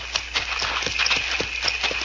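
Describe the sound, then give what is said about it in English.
Horses clip-clopping in a steady stream of many hoofbeats, crisp and evenly paced over a low background hum. “Let's get these horses out of sight.”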